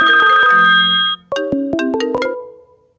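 Telephone ringtone for an incoming call plays alone: a sustained, bright electronic chord followed by a quick run of several short melodic notes that fade out.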